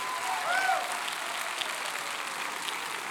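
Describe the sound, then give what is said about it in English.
Audience applause welcoming a guest speaker at a church, a steady wash of clapping that swells slightly early on, then continues evenly at a moderate level. “So would you put your hands together and welcome Doc Henley as he comes to share with us today.”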